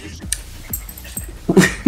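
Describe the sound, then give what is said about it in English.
Dogs breathing heavily with their tags jingling: a few rhythmic panting huffs and brief bright metallic clinks, with a louder burst near the end. “We got some doggos here, and they'll be providing us with some background noise of... Heavy breathing. Dog breathing.”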